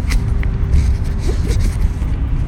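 A car drives with a steady, fairly loud low road rumble that runs throughout, with a few faint higher clicks.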